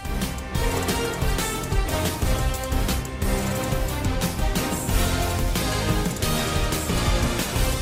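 Amazon Prime Video Sports NFL theme music plays loud and dense, driven by a steady pounding beat under full, bright layered instrumentation that stays at a constant high energy throughout.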